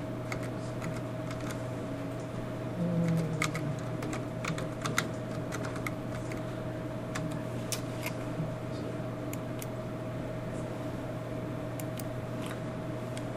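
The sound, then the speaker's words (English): Typing on a computer keyboard: many quick, irregular key clicks tap along over a steady low hum. The keystrokes are faint and come in loose bursts, with no voices. “I sat there and happily typed and didn't go anywhere.”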